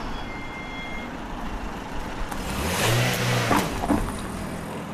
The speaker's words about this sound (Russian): По улице едет машина.